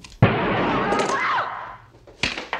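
A loud, sharp gunshot cracks out with a long, ringing tail that slowly fades, followed by another abrupt burst near the end.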